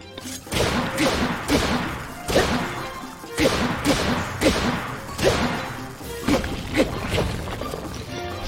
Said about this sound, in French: Est-ce que si je lance mon arme...